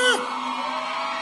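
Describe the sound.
A loud shout from the audience at a live concert DVD recording. It opens with a falling whoop, then holds as a sustained yell.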